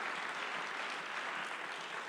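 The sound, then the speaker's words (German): Church audience applause as members welcome one another, an even, unbroken hiss of many hands clapping, fairly soft and level throughout. “Lass uns gegenseitig nochmal mit einem starken Applaus begrüßen.”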